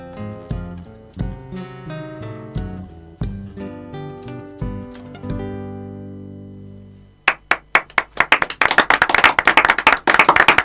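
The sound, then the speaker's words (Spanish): Audience applause follows a few sustained, decaying musical notes. Several sharp, separate claps come first, then they build quickly into dense, loud clapping from many hands. “Segunda entrega y segundo aplauso.”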